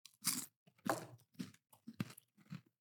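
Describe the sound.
Crunchy chewing of a handful of Skittles-flavored snack that tastes like caramel corn, heard alone as several loud crunching bursts separated by short pauses.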